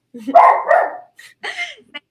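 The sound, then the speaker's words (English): A dog barks a few times, with loud rough barks followed by shorter, higher yips and whines separated by brief gaps. “Sorry, my dog.”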